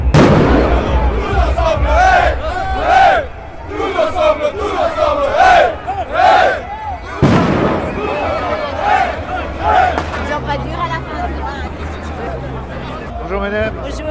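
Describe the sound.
A crowd shouts and chants at a joint trade-union street demonstration over purchasing power, held in February 2013. The voices are loud and dense throughout, with rising and falling chanted phrases.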